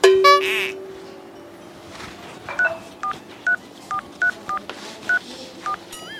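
Telephone keypad tones as someone dials a phone number: eight short, clear beeps in an uneven rhythm, each a single steady pitch, heard alone without talk.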